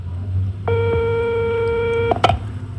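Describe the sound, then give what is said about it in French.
A telephone rings on an outgoing call to a number looked up in a directory. One steady, buzzy ringback tone lasts about one and a half seconds, followed by a couple of sharp clicks on the line. “Ah, ça sonne, mais ça sonne, mais oui.”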